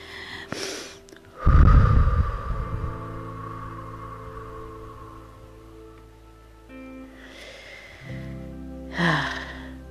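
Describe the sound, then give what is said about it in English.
Slow, deep breathing from an anxiety grounding exercise: a loud, rough inhale followed by a long, quiet, drawn-out exhale, then more audible breaths near the end. No voices are heard. “Inhale. Then exhale for 7.”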